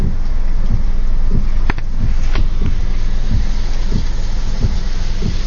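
Rain falls in a steady, dense hiss that stays loud and even throughout, with a few soft low thuds recurring beneath it.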